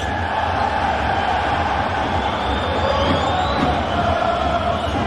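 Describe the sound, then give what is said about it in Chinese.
A basketball arena crowd at a EuroLeague playoff game reacts to a possible push foul, a continuous broad roar of many voices holding at a fairly even level throughout. “现场观众的这个应激反应呢，是来自于可能认为鲁夫斯推人”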